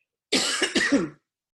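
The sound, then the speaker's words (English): A person with a tickle in the throat gives a short, rough cough that runs into a raspy, voiced throat clearing, one brief burst of under a second, alone. “Excuse me, I got a little tickle in my throat here.”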